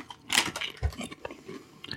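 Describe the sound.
Crunchy chewing of a kebab-flavoured snack: a sharp bite followed by a run of crisp, irregular crunches and a duller chomp, close and alone without any talk.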